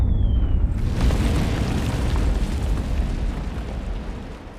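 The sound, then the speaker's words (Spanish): German artillery shelling a city sets off a deep blast after a brief, faint falling whistle. A heavy, rolling rumble follows and fades slowly. There is no talk. “La artillería alemana bombardea la ciudad de la mañana a la noche.”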